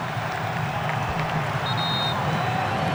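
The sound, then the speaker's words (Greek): Stadium crowd cheering at a football match as Norway's Ødegaard rouses the fans before a corner against Brazil. The roar is a dense, loud, steady wash of noise from start to end. “Κόρνερ για την Νορβηγία από τα δεξιά. Και ο Όντεγκαρτ ξεσηκώνει το κοινό.”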